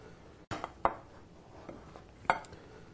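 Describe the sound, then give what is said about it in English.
A knife cuts vegan sausage into pieces of about three-quarter inch, giving a few faint, sharp knocks on a board at uneven intervals. “what's involved here is cutting it into about 3/4 inch pieces. Everything about the same size.”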